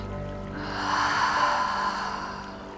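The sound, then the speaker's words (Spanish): A slow, airy breath during a guided healing meditation, a soft rushing sound that swells gently in the middle and fades away again, heard alone with no talking. “Inhala y exhala.”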